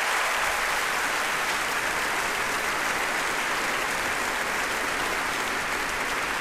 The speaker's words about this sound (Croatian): Pozdravimo ih pljeskom.